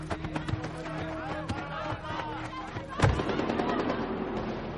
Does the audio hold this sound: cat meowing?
no

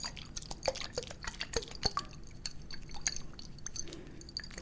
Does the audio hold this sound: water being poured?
yes

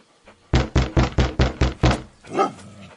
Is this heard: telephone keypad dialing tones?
no

